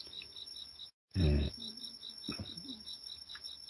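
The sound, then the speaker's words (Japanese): Various crickets chirp around a mountain house in September, a steady, rhythmic high-pitched pulsing that continues throughout, broken once by a brief dropout and a low thump. “家の周囲には、様々なコオロギの仲間が賛美しているという状態ですよね。”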